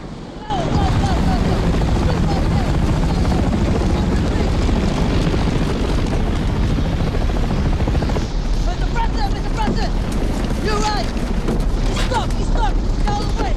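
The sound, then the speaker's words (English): Military helicopters descend and touch down near a road beside smoking wreckage. A steady, loud rotor roar starts abruptly after a brief quiet opening and holds throughout, its texture shifting partway through. “Smoke and dust continues to swirl around the wreckage as the choppers descend. They touch down near the road, and armed military personnel scramble into action.”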